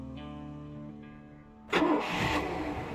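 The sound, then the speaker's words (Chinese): A boat motor starts up as the boat sets off across the sea. A low steady hum gives way to a sudden loud, rough roar of the engine catching, which keeps running strongly to the end. “马达声声，船身开动，向着五珠村海域的方向。”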